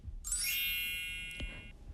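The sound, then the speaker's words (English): A mobile phone gives one bright, ringing electronic chime that holds briefly and slowly fades away. “Your phone? Yeah, I don't know how to turn this thing off.”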